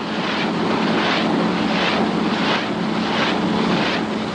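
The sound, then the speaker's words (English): Steady roar of a Rotodyne compound aircraft taking off, a loud, continuous wash of engine and rotor noise that swells in a regular pulse about every 0.7 seconds, with no voices. “Tower from Rotodyne, take off clearance, please. Rotodyne from tower, you're clear to go. Roger, Rotodyne taking off now.”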